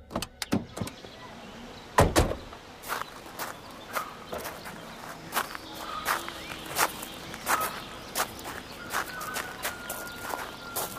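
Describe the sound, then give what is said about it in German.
Footsteps walking along an avenue lined with large plane trees: many steady, evenly spaced steps with one heavier thud early on, heard alone with no voices. “Gehen wir ein paar Schritte.”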